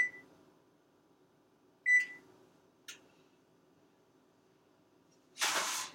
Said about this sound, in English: the first step before we do anything else is we gotta set our oven to 350 degrees